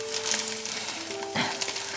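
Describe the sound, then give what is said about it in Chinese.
Eggs sizzle and fry in a pan as they are flipped. A steady, bright hiss runs throughout with small crackles scattered on top. “忙着把鸡蛋翻面”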